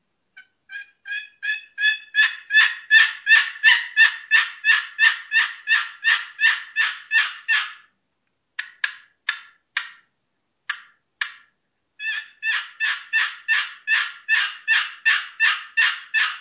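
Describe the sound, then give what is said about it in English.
Turkey yelps from a Pollard box call: a long, loud, rhythmic run of raspy yelps that builds in strength, then a pause with a few scattered single yelps, then another steady run of many yelps, with no other sound. “That's the Pollard box.”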